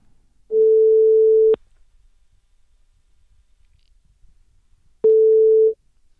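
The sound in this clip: Ringback tone of an outgoing telephone call: two long, steady mid-pitched tone bursts separated by several seconds of silence.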